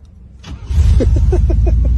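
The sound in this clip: A push-to-start car engine fires up right away. A brief rising crank catches quickly and settles into a loud, steady low rumble with regular, fast pulsing, and no voices are heard.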